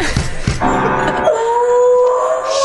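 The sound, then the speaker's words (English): A dog howls in one long, wavering, strongly pitched note that holds to the end, after a couple of short, sharp sounds at the start. “Shut that dog up!”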